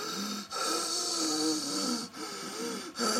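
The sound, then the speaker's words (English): Quiet wheezing breaths from a person having trouble breathing, with phlegm and catarrh. Wavering, whistly tones run through each breath, separated by brief pauses, with no talk. “I'm wheezing quite a lot. Wheezing. And that means you're having problems breathing. And it makes a sound when you breathe.”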